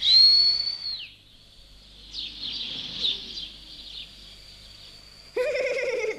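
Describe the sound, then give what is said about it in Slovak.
A person whistles a long, high, sustained tone with wavering trills that rises and falls, holding steady for several seconds before ending in a louder, chirpy burst. “čo tak hvízdáš? Lebo sa mi to páči.”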